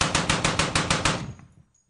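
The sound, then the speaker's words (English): A Gatling gun fires a rapid burst of roughly eight sharp, evenly spaced shots in about a second, then the last report rings out and fades to silence. “Sounds like a Gatling gun in the background. That's pretty good.”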